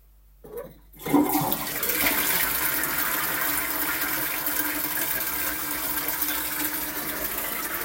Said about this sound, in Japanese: 流してお部屋に戻りますね。